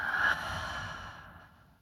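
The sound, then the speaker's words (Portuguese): A breath is released through a half-open mouth during a guided breathing exercise: a single soft, airy exhale that starts strongest and gradually trails off over nearly two seconds. “Pode soltar com a boca entreaberta. Vamos mais uma vez. Inspira. Solta.”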